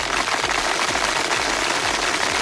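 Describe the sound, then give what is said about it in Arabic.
Applause as people clap for a person, a dense, steady patter of many hands that stays loud and even from start to finish. “صفق عليه صفق عليه”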